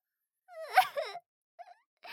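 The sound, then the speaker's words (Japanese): A woman cries, letting out a quavering, wailing sob followed after a pause by a short, faint whimper. “こんなの泣くに決まってるじゃないですか。”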